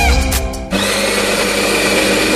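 An electric coffee grinder grinds fresh coffee beans with a loud, steady, high whirring buzz that settles into an even drone after a brief shift in tone at the start.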